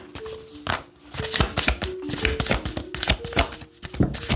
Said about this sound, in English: Let's get one more. Spirit, ancestors, guardians, and guides of the Most High. One more card.